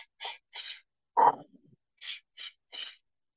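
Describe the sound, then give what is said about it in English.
Forceful breaths from a deep breathing exercise: six short, sharp, airy bursts in an uneven rhythm. The third is louder and lower, like a gasp. No one speaks. “when you get into deep breath work, and I call the program that I'm doing right now Breathing for Jesus. So I have a three-tiered breath system.”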